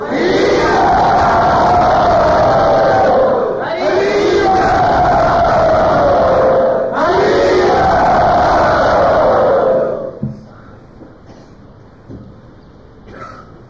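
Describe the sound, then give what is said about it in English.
A crowd loudly and enthusiastically chants Hari Bol to welcome a guest. Three long, sustained calls of many voices follow one another before the chanting drops away to near quiet. “let us welcome Shravananda Prabhu by very loudly and enthusiastically chanting Hari Bol”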